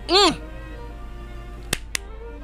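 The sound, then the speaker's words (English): Two sharp, quick hand claps from one person, coming in close succession after a short vocal sound at the start. “As I clap my hands, you did not succeed.”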